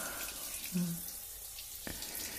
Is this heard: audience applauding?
no